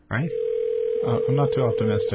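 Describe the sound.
An outgoing cell phone call rings as a steady, unbroken mid-pitched tone that starts suddenly and carries on under a person talking.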